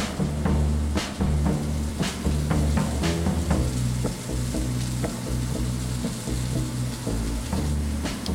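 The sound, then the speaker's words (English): Mushrooms browning in a hot pan give off a steady, dense sizzle, with scattered sharp ticks and taps rising above it throughout. “So once our edges are starting to brown, we'll give it a quick toss, and then we'll let that side brown, maybe arranging the mushrooms just a little bit back into that single layer if we need to.”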